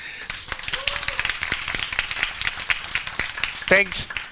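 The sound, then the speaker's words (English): An audience at a Godot game engine developer talk claps. Many sharp, uneven claps form a scattered patter, and a short voiced exclamation comes near the end. “thank you very much for clapping for a very dirty hack, but the hack works.”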